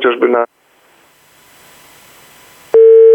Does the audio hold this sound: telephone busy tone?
yes